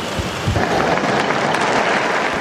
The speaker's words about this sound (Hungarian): A mai napon is a téren jelenlevő zarándokok tapssal fejezik ki köszönetüket, hálájukat Ferenc pápának.